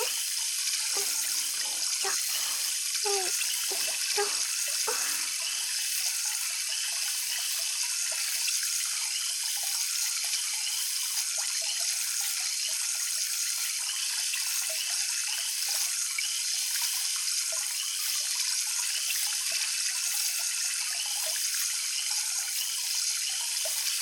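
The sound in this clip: Water runs from a tap for a thorough rinse. It makes a continuous, even hiss that lasts the whole length, with a few brief splashy changes near the start.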